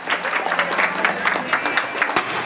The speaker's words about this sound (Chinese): 一起响起这里的掌声，有请二位共同入场了。